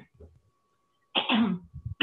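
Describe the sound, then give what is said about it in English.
A person clears their throat on purpose in two rough, raspy bursts, the first longer and the second cut off at the end, with brief low voice sounds before and between them. “You just finish the rest of the podcast and I'll clear my throat every 15 seconds.”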